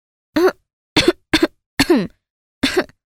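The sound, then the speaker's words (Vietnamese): A woman's feigned coughing: five short, dry coughs spaced unevenly over about three seconds, with silence between them and no speech. “nàng húng hắng hò 2-3 bận, cốt để cho chú hoàng tử áy náy, cảm thấy là mình có lỗi.”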